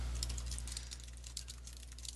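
Typing on a computer keyboard while entering a search query: a faint, rapid patter of many light key clicks over a steady low hum.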